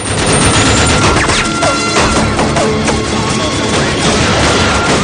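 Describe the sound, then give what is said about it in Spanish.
Loud rifle and machine-gun fire in a western shootout, a long-haired gunman shooting from a rock. Many rapid shots overlap with sharp crashes in a dense, continuous barrage. “En la roca, el hombre de pelo largo dispara. El herido se precipita por el sendero.”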